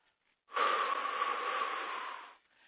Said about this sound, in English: And everybody take a deep breath in and out.